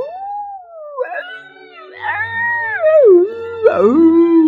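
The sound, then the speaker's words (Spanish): Coyotes howling around a house at night: several overlapping wavering howls with sliding, falling pitch and a few sharp yips, moderately loud. “En la madrugada, la abuela escuchó que alrededor de la casa había muchos coyotes que estaban aullando.”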